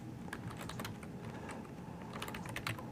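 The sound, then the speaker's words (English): Rapid clicking of a computer keyboard as a command is typed, the keystrokes tapping out in a dense, steady flurry of light plastic clicks with no voices over them. “So we're going to type node agent VSO agent. And now it's going to say, what's your username?”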